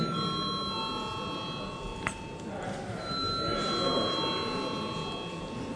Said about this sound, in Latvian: Lūdzu zvanu.